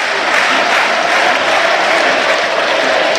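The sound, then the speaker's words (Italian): Loud football crowd applause from the stands, fans clapping for their team near the end of a match, a dense, continuous roar of many hands with a faint crowd murmur blended in. “li sentite, non solo la curva che applaude questa squadra.”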